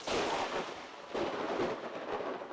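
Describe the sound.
Thunder rumbles across the sky as a steady, broad, low roar that swells and eases in a few slow waves, fairly faint and with no voices.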